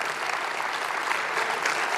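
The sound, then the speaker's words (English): An audience applauds volunteers on stage with dense, steady clapping that stays loud and even throughout, with no clear pauses. “And you please applaud and say thank you.”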